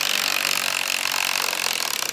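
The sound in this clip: A power screwdriver whirs as screws are backed out of a wooden art crate at a museum, a steady high-pitched buzzing drone with a fast, even pulsing throughout.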